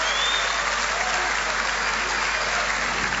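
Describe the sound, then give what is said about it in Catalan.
An audience at a gala applauds the president, a loud, dense wash of clapping that stays steady from start to finish. “President, aplaudiments.”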